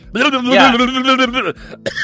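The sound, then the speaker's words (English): A man clears his throat with a long, strained, voiced rasp, then follows it with a couple of shorter, rougher grunts. “Hang on. Sorry. I just got a thing in my throat.”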